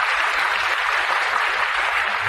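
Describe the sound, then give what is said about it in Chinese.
Audience applause during a motivational talk on entrepreneurship, a thick, even wash of many hands clapping, steady and loud from start to finish. “大家给他一个掌声。”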